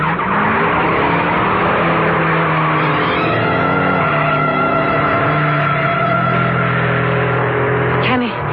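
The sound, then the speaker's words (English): A race car speeds around a track curve, its engine a loud, sustained roar with shifting pitch and a squeal of tires, filling the whole stretch without pause. “Can he catch him, Joe? If he can keep her on the track. He made that curve all right. And he's catching up on the straightaway.”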